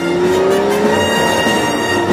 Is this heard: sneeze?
no